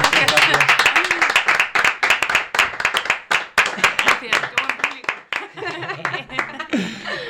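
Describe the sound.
Applause for a band from a small audience, brisk clapping with scattered chuckles that thins out and fades near the end.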